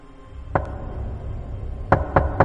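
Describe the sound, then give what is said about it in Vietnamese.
Knocks sound on a room door at night. There is one sharp knock, a pause, then three more in quick succession over a faint, low background murmur. “Anh ngồi dậy lắng tai nghe, đúng là tiếng gõ cửa thật.”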